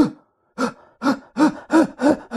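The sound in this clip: A voice imitates a newborn baby girl's gasping first breaths: a faint gasp, a short pause, then five louder, breathy, voiced gasps in a steady rhythm.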